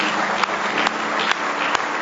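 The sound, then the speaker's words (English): Congregation clapping hands in praise during a morning church service: dense, steady applause-like clapping throughout, with a few sharper claps standing out above the wash. “Let's give Him a real good hand clap of praise if you love Him this morning.”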